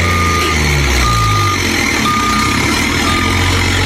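Reversing beeps ring out from a chiva bus loaded with coffee, four evenly spaced high beeps over a loud, steady engine rumble.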